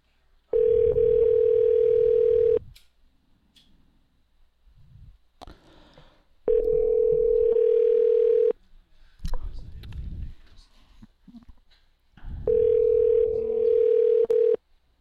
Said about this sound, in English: Just ringing and ringing.